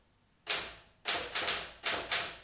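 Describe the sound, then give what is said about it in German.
Typing on a Remington typewriter gives five sharp, loud clacks at uneven intervals. Each keystroke strikes crisply and decays quickly, with a longer pause after the first. “Ja, eine Remington. Was machen Sie denn da? Bisschen tippen.”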